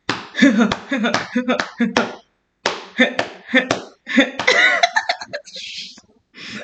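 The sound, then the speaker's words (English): Solo vocal beatboxing, a run of sharp percussive mouth bursts and clicks in an uneven rhythm, broken by a short pause, with voiced, pitched vocal passages woven between the beats. “I wish I had somebody here to beatbox with me because I can't do both parts by myself. But I'm going to try”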